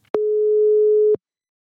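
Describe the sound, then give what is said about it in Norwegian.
A telephone ringback tone sounds while a call is placed: one loud, steady tone lasts about a second, then cuts off into silence. “Så let's call Carrie-Anne.”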